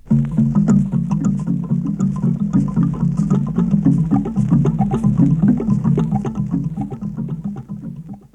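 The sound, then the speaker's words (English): An mbira thumb piano with bamboo notes, its strip ends plucked by thumb and forefingers, plays many soft, woody, low-pitched notes in a steady, repeating rhythmic pattern that holds evenly, then fades at the end. “The free ends are plucked by the thumb and forefingers to sound like this when playing bamboo notes.”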